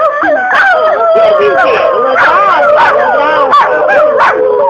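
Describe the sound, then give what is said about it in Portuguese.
Two large spotted dogs with toothache whimper and howl, a loud, continuous stream of wavering whines and yelps whose pitch slides up and down throughout. “O pior foi quando chegou um rapaz com dois enormes cães malhados. Que vinham com dores de dentes. Choravam, choravam.”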